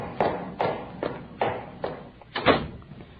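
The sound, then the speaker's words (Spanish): A chair is pulled closer, making a series of dull, low thumps at a fairly steady pace, one after another. The thumps are quiet, and no one speaks. “Voy a arrimar esta silleta.”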